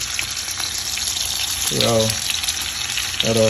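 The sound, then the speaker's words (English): Turkey burgers and bacon fry in a pan heated with olive oil, giving a loud, steady, crackling sizzle that runs without a break. “the olive oil, I threw it in there ahead of time to heat the pan. All right, so now I have turkey burgers in there. So I'm gonna throw that bacon in there.”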